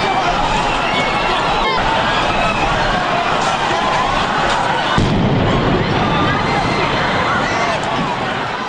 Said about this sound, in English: as runners at the end of 26-plus miles poured across the finish line through streets crowded, many deep, with happy spectators, these blasts. You'll hear one, then a pause of what, 8, 9, 10 seconds, and the second.